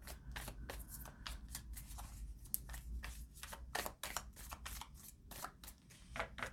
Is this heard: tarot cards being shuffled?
yes

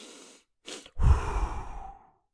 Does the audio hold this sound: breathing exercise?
yes

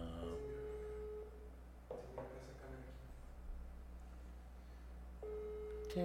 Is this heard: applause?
no

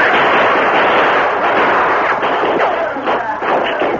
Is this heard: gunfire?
yes

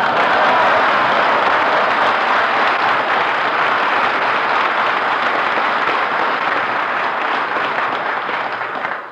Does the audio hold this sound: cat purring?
no

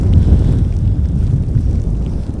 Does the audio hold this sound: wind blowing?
yes

